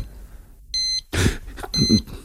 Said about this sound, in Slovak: Nemohli by ste vypnúť to pípanie na tých hodinkách?